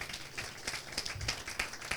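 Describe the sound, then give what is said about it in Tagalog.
Congregation at a church service applauding for the Lord: faint, steady, rhythmic clapping with regularly spaced claps throughout. “Pwede po ba natin palakpakan ng Panginoon?”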